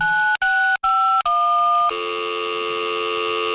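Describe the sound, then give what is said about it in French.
Telephone keypad dialing tones calling an answering machine: four short dual-tone beeps in quick succession, then a steady multi-tone sound held to the end. “Vous êtes sur le répondeur de FMR.”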